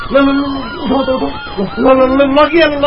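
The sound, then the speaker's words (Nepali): An ambulance siren wails at a road accident scene near a zebra crossing, its loud, harmonic tone sweeping up and down continuously through the whole stretch. “Ambulance ambulance”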